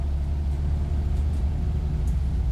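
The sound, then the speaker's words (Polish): Coach bus driving from Kromołów toward Zawiercie, heard as a low, steady engine rumble and road drone with no breaks. “Z centrum Kromołowa jedziemy naszym autokarem w centrum miasta Zawiercia.”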